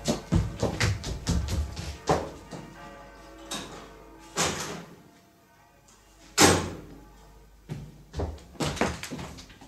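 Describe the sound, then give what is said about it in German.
A door is unlocked and opened: several sharp clunks, rattles and thuds come in uneven bursts, with quieter gaps between them. “Ich werde ihm aufschließen.”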